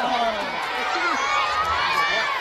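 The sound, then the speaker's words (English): Japanese schoolchildren cheering as dignitaries tour the Hiroshima World War II memorial site, a continuous chorus of high, excited voices overlapping one another at moderate loudness. “Japanese schoolchildren cheered and waved flags as Mr. Kerry and other dignitaries toured the site”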